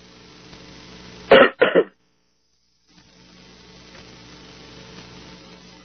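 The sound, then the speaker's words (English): Two short, loud bursts of throat clearing and coughing arrive in quick succession, followed by near silence and then a faint, steady background hiss. “Sorry, I've got something stuck in my throat here.”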